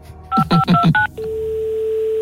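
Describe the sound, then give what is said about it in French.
Telephone keypad tones as a number is dialed: four short, crisp two-pitch beeps in quick succession, then a steady continuous tone that holds to the end. “On va prendre un joker, on va appeler le directeur général du Toulouse Football Club.”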